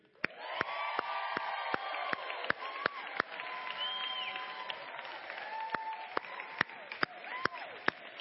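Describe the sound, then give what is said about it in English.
A church audience cheers and applauds for the dads and men at a Father's Day service. Steady crowd noise carries several rising whoops, with sharp claps scattered throughout. “So on the count of three, we'll uh, give a hoot and holler for all of our dads and men of the church.”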